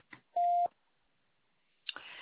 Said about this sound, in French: Veuillez laisser votre message après le bip.